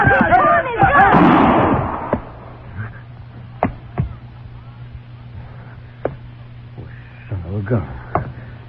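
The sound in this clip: Sharp gunshot cracks ring out in a Western film scene: a few brief, loud reports spaced over several seconds, with people talking at the start and again near the end.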